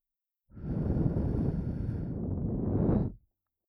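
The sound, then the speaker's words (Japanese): A long, steady breath blown into both ears at once to clear out fine earwax: a single broad, airy whoosh lasting under three seconds, heard alone without talk. “左右同時に息を吹きかけて細かい耳垢を飛ばすわね。”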